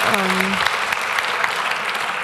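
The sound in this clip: Audience applause at a talk, dense steady clapping that holds at an even level throughout, with a short voice call near the start.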